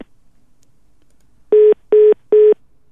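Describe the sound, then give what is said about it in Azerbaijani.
A telephone line disconnection tone: after a moment of silence, three short, identical beeps at one steady pitch sound in an even rhythm. “Sabir Rüstəmxanlı ilə telefon rabitəsi kəsildi.”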